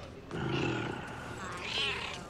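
A cat, held by a woman, meows in a short, drawn-out cry over a steady, noisy background.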